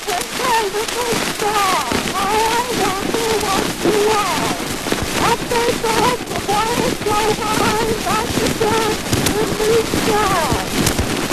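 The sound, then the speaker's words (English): A 123-year-old Edison-era recording of a woman singing Twinkle, Twinkle, Little Star. Her wavering melodic voice sits under constant loud hiss and crackle throughout. “123 years old. It's 12 seconds long. It's Twinkle, Twinkle, Little Star, and it might be a little difficult to, well, let's take a listen.”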